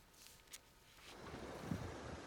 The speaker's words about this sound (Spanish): Es la fuerza del agua arrasando los campos de Valdealgorfa, en Teruel. En menos de media hora las tormentas arrasaron con todo a su paso.